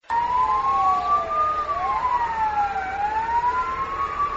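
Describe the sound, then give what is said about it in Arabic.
Sirens wail from traffic police cars and fire engines as traffic halts for a five-minute commemoration in Iraqi Kurdistan: several overlapping siren tones rise and fall slowly, loud and continuous, with no talk. “على وقع صفارات الإنذار التي أطلقتها سيارات شرطة المرور والإطفاء، توقفت الحركة لمدة 5 دقائق في مدن إقليم كردستان العراق”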